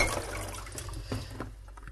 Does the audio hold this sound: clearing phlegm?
no